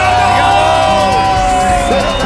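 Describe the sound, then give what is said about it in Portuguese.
Concert audience cheering and whooping loudly and continuously after a song, with shouting voices mixed into the dense roar of the crowd. “Salva de palmas aí, valeu! Valeu, galera!”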